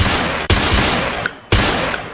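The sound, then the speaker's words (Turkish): Shotguns and pistols are fired into the air during a wedding celebration. Two loud, sharp bangs stand out against a constant dense background of noise. “Düğün kutlamasını bahane eden altı şehir eşkıyası pompalı tüfek ve tabancayla havaya mermi yağdırdı.”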